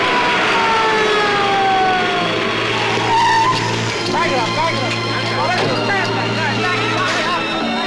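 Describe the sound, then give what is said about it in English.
A police car arrives with its siren wailing in rising and falling sweeps over a loud, steady engine and road rumble. Tyres seem to skid as it pulls in. “Police car arrives.”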